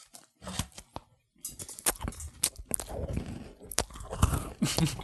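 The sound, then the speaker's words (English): People bite into and chew cookies in a crisp, crunchy way. Many sharp crunches and wet chewing noises follow one another irregularly, with brief quiet pauses between bites. “There's no video to this, but we're eating cookies right now. Here, let's have some ASMR cookie eating.”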